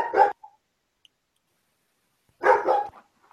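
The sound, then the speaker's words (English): A dog barks in short, loud bursts: one sharp bark, a brief yip, then about two seconds of quiet before a quick cluster of barks. “my dog's barking. I'm sorry. Hold on. The dog has a lot of feelings about this too.”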